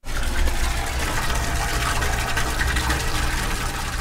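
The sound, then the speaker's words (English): Maple sap flows from tubing lines out of the woods into a big cement box lined with food-safe plastic at a sugar house, a loud, steady gushing and splashing of liquid that continues without a break. “That is the sound of sap flowing. A lot of it.”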